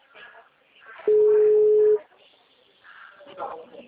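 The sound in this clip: A telephone ringback tone sounds while calling back after a dropped call: one steady, mid-pitched tone lasting about a second, loud and even. People talk quietly before and after it.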